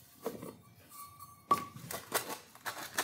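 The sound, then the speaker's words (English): Flour is sifted for a gluten-free angel food cake, giving faint metallic clicks and light rattling at a few scattered moments. “Okay, so now I've sifted the flour once.”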